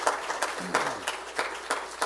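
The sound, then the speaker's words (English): An audience gives a hand clap of praise during a church service, with sharp claps falling in a steady, even rhythm over a soft hum of room noise. “Let's give the Lord a hand clap of praise.”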